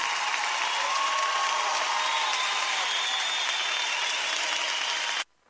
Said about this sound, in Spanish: Ese aplauso, tú sabes para quién es, por favor.